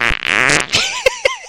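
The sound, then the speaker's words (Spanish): A squeezed fart, pressed out between the buttocks, comes as a tight, sputtering buzz that flutters rapidly and then stretches into a strained blat. A few short, voiced bursts follow near the end. “Y existe también el peo aplastado, el peo, coño, con cierta presión internalgal, que suena más o menos así.”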